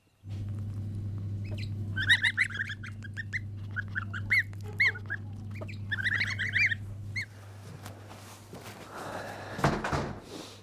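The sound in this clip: Goose goslings peep in a farm shed, many quick high chirps in bursts over a steady low hum, which drops away near the end.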